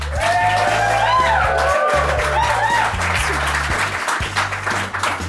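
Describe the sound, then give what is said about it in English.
An audience at a live event at Yale University applauds in a dense, steady wash of clapping and crowd noise, with music playing underneath throughout. “It's a really good recording of an audience we have.”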